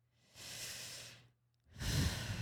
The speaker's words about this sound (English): Take in a deep breath. Now breathe it out.